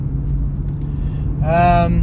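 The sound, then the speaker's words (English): Steady low engine and road rumble from a car being driven, a continuous deep drone throughout, with a brief voiced sound rising over it near the end. “Driving and podcasting. It's not illegal.”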